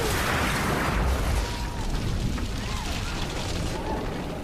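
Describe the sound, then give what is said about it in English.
An armored truck exploding: a loud, dense roar and rumble that holds steady and eases slightly after the first second or so, with no distinct single blast standing out. “The truck explodes.”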